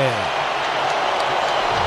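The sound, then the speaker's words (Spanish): A stadium crowd in Miami gives an ovation as Neymar enters a football match, a broad, steady roar under a commentator talking over it. “La primera gran ovación del público en Miami, Walter.”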